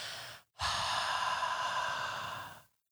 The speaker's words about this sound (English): Take a big, giant breath in and kind of hold it at the top of the inhale for a moment. 1, 2, 3, 4, and then let it out forcefully.